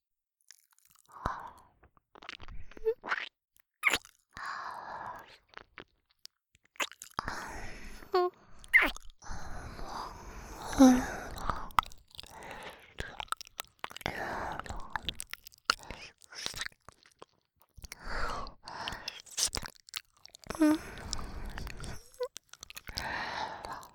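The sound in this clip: Wet ear-licking mouth sounds close to the microphone, irregular smacks, slurps and soft crunchy clicks arriving in uneven bursts separated by short quiet gaps.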